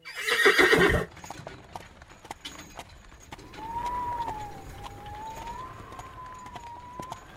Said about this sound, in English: I'll get out and walk, so as not to tire the horses.